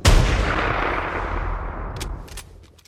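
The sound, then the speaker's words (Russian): A single gunshot is fired at a creature in the snow. It opens with a sharp, loud crack, then a long rumbling decay that slowly fades over about three seconds. “Я выстрелил первым, но этого мне показалось мало, и я еще перекатился в сторону.”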